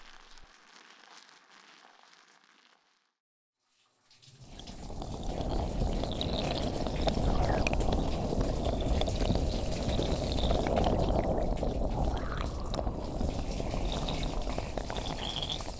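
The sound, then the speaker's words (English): Water pours to rinse shampoo out of hair. A softer trickle comes first, then a short pause, then a strong, steady rushing flow that keeps going to the end. “The shampoo's been in your hair long enough. It's time to move on to the conditioner next. Let's quickly give you a rinse.”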